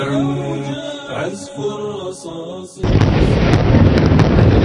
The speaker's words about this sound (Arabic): يا الله قذف اليهود قذف أبراج الصالح سبعة